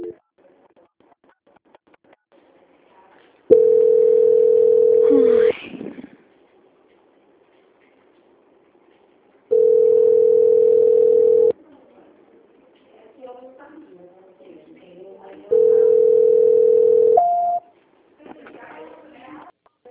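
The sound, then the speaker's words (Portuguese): Three long, steady mid-pitched beeps, each lasting about two seconds and evenly spaced, mark a telephone voicemail signal after a recorded Portuguese-language message. Softer speech-like sounds fill the gaps between the tones. “Sua chamada está sendo encaminhada para a caixa de mensagens e para a sujeita cobrança após o sinal.”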